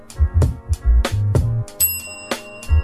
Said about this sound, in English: I don't want to overring the bell on the opening